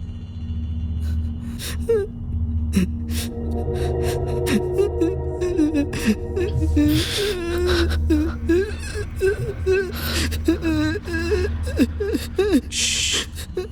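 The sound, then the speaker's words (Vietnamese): Faint, strange-sounding whimpering cry from a person with a burned throat: many wavering, strained sobs rise and fall in pitch above a steady low drone, with breathy gasps between them. “Sau đó bỗng khóc rưng rức. Vì cổ họng bị bỏng nên âm thanh phát ra rất nhỏ và nghe khá kỳ dị.”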